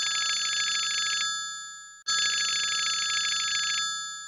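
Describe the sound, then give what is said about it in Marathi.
Telephone bell ringing: two long, bright electronic rings separated by a short pause, each steady and loud, with no talk over them. “एक minute, प्रभेचा phone.”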